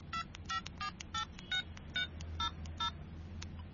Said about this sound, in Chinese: 你帮我打电话俾佢